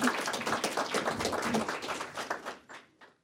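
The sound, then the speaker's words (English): Audience applause at a public evening talk on artificial intelligence in medicine at Merge in downtown Iowa City, dense and steady clapping that thins out and dies away at the end. “Thanks very much for joining us. Please give them a hand.”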